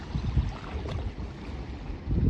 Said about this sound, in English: Now we're at the little harbour, lads, as we say in Ireland.